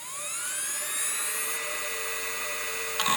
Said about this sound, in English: It would spin fast when you'd start it up or click on a file. It was a mechanical thing you felt. Yeah, like my 2005 era PowerBook would sound kind of like this.